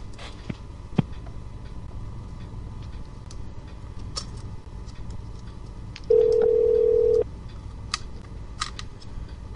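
Telephone line clicks during a call being transferred to an extension at a Roadway Inn corporate office, followed by a single steady ringback tone lasting about a second, then more scattered clicks.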